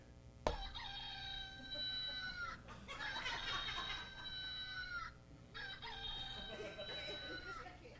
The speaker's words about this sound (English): a rooster crowed